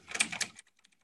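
Rapid computer keyboard typing: a dense burst of quick key clicks for about half a second, then a few scattered, fainter single keystrokes.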